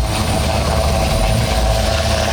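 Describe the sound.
Helicopter engine and rotor noise during an air search operation at sea, a steady, loud, low drone with a constant thin whine on top, unchanging throughout.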